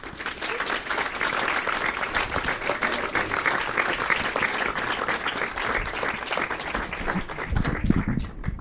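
Sustained audience applause at a film screening welcomes the two directors of the documentary 20,000 Days on Earth, with thick, even clapping that carries on for more than eight seconds.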